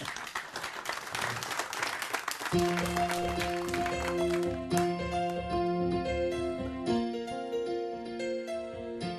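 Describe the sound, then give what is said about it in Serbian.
Applause from a concert audience fills the first two and a half seconds as a dense wash of clapping. Live music then starts and carries on steadily. “Može aplauz.”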